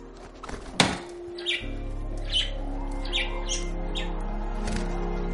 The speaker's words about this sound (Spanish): El pájaro tira una de las fotos de la consola.